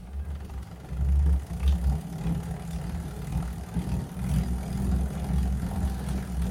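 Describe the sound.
A bicycle spins on an indoor roller trainer during an easy warm-up at about 90 pedal strokes per minute. It makes a low, steady whirring drone that swells and eases slightly in even waves.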